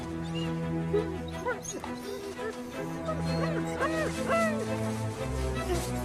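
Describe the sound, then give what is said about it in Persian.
A dog whimpers for help, letting out several high, wavering whines and short yelps over a low steady drone. The whines grow more frequent toward the end. “سگ داشت تقاضای کمک میکرد.”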